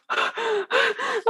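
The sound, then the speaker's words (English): A voice imitates loud, panicked breathing through an oxygen mask during a training exercise: four quick, harsh, voiced gasps in a fast rhythm, each strained and noisy, alone without other talk. “like this loud breathing. And I completely freak out. I'm like going like this.”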